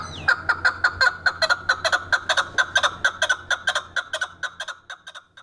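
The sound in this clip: A chukar partridge calls in a long run of rapid, evenly spaced clucking notes, loud and rhythmic, softening slightly toward the end.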